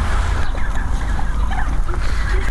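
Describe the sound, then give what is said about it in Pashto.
Turkeys gobbling and calling while being fed handfuls of corn kernels, with a few scattered bursts of calls over a steady low background noise. “فیل مرغانو هم د خوړو په لیدو سره شور جوړ کړي.”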